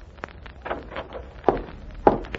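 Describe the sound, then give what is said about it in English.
Knocking on the door of a small house standing back from a yard: a few sharp, hollow raps spaced well apart, with the last two the most pronounced. “He and the Nazi walk across the yard to a little house that stands back a piece. The Nazi knocks on the door.”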